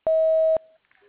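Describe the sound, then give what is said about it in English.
Voicemail beep before leaving a message: a single clear, steady, mid-pitched tone about half a second long, loud and alone, followed by faint noise. “Leave your message at the tone. Press pound when finished.”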